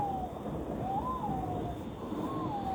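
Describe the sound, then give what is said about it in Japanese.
A white-bellied green pigeon calls from trees in a hilltop park above a bay in Kanagawa, Japan. Its mellow, wavering whistle swoops up and down repeatedly, sustained over a steady background hush. “木々の間をよく見ると、明るい緑色の羽をした鳥がいます。アオバトです。”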